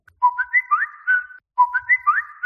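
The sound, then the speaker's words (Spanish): WhatsApp message notification tones arrive in quick succession: a bright, whistle-like melodic chirp pattern plays, pauses briefly, then repeats. “Una sucesión de WhatsApps uno detrás de otro,”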